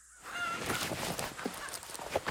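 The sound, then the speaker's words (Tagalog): Native chicken taken from a homemade pen squawks and clucks in a few short, harsh, nasal bursts, moderately loud, over about two seconds. “ng isang manok doon sa kulungang ginawa niya”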